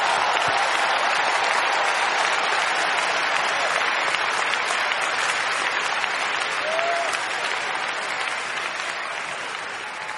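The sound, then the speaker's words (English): Audience applause after a guest is introduced: dense, steady clapping from many hands that keeps going for about ten seconds and eases slightly toward the end. “Please join me in giving him a big round of applause.”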